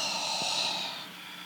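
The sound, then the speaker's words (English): A deep breath exhaled through the mouth during a yoga flow: a soft, airy rush that holds steady for about a second, then thins and fades out. “Take a breath in, and let it out through your mouth.”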